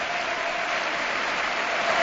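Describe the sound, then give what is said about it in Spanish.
A football stadium crowd gives a thunderous ovation during a Barça match, a dense, unbroken roar of applause that stays loud and steady and swells slightly toward the end. “y ovación atronadora de nuevo en todo el estadio.”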